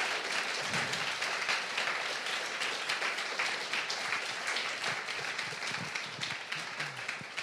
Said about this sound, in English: Chris Grosso, everybody. Let him hear it.